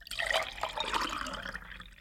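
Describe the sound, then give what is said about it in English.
Water pours into a clear, colorless glass, making a steady, splashing trickle that runs for about two seconds with no talk over it. “Fill a clear, colorless glass with water.”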